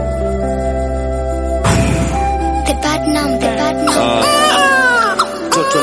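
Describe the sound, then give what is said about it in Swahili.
A baby cries in repeated wailing bursts with shifting pitch, loud over a steady tonal background. “Analia, mama limsikia analia.”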